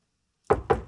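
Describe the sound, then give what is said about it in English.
Nervous knocking on a front door: three firm knocks, evenly spaced, come alone after a stretch of silence. “Raj's date arrives at his front door and nervously knocks.”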